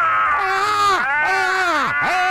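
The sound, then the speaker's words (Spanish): Two people scream together in an outburst of frustration over a football injustice. Their voices are loud and wailing, with sustained cries that rise and then fall away in sharp sweeps. Three long screams follow one after another. “Vamos a gritar los dos para desahogarnos por esta injusticia. ¡Gritemos!”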